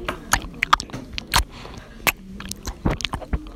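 Crunchy bites and chewing of animal crackers, eaten up close for ASMR: a series of sharp, crisp cracks at an uneven pace, with soft, moist mastication between them and no talking.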